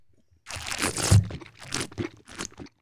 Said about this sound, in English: These are real sound effects. Yeah, this is not made up. I mean, I'm actually tasting the wine, okay?